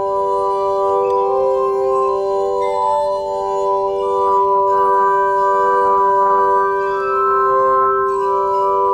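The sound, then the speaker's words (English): Sustained ringing tones of a glass armonica, wet clean fingers pressed on spinning glasses turned by a foot-worked flywheel under the table; several pure pitches sound together as a loud, steady, organ-like chord with no voices. “the way I'm making the glasses move is there's a flywheel at the end that kind of looks like an old spinning wheel, and I'm working that with my foot under the table. So when I get my fingers wet”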